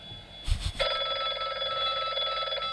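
An incoming call sets a telephone ringing, a steady electronic trill that starts after a couple of low thumps and keeps ringing without a break.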